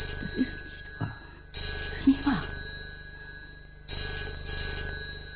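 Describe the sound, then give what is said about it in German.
A telephone rings, a bright, steady electronic trill that comes in repeated bursts with quieter gaps between them, while no one speaks. “Geh ans Telefon.”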